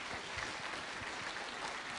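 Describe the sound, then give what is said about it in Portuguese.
Applause from a church audience, a dense, even wash of many hands clapping that stays faint and steady for about two seconds without a clear break. “Você pode dar uma salva de palmas a Jesus pela vida do Carlinhos.”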